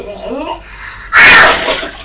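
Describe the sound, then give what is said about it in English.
Water sloshing and splashing as a child plays with two bowls of water, a sudden loud burst in the second half that follows a stretch of talking. “When you're playing with these two bowls of water, you have to take it in turns.”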